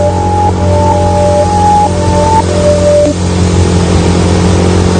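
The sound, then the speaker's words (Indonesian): Motorcycle engine revving under throttle with heavy exhaust noise, the bike feeling sluggish and weighed down. A loud, steady low drone runs throughout, with faint higher whining tones over the first three seconds. “Aku gas. Motorku malah membuat suara knalpot yang terasa memang motorku ini berat.”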